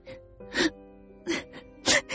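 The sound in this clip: A woman sobs in a Vietnamese radio drama, letting out several short, broken bursts of crying with quiet gaps between them. The later bursts are louder and more strained.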